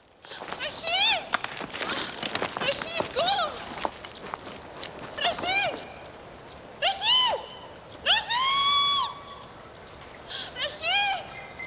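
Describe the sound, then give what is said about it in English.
Running footsteps cross the top of a ditch as many quick, irregular impacts. High, wavering cries rise and fall among them, and the loudness swells and dips throughout. “Hibber runs across the top of the ditch.”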